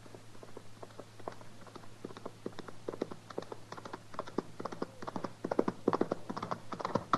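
Horse hooves galloping hard as a rider approaches, a fast, continuous clatter of beats that grows somewhat louder toward the end, over a low steady hum.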